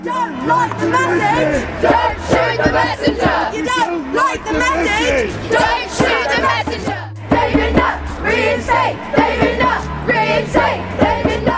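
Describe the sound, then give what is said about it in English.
Protesters outside Parliament in 2009, rallying against the firing of drug policy advisor David Nutt, chant loud rhythmic slogans in unison. Each line is repeated by the crowd, with yells and bellowing voices rising over the chanting. “That's the sound of a protest taking place outside Parliament in 2009.”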